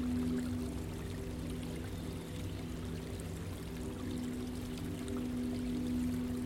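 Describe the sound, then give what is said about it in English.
Water tumbles down a series of stepped stones in a garden water feature, giving a steady, even rush and patter that holds at the same level throughout, with a faint low hum underneath and no talk. “it falls and tumbles down a series of stepped stones, creating the most lovely water feature.”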